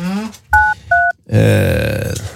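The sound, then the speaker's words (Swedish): Telephone keypad tones as a phone number is dialed: two short dual-pitch beeps in quick succession, set between bursts of a person speaking. “hjälper mig slå telefonnummer här”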